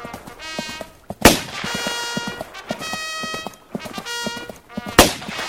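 Two sharp gunshots ring out in a historical war radio drama about a battalion's charge at the gallop. The loud, sudden bursts stand out over galloping hoofbeats and other busy tonal sounds.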